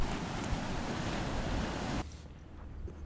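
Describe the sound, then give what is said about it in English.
Ocean waves break on both sides near the jetties in a loud, continuous rushing wash, which drops sharply to a quieter, steady surf hiss about two-thirds of the way through. “you can hear the waves both sides. It's a little rougher than I would have assumed considering the lack of real wind or real weather, but we're going to go on past the breakers”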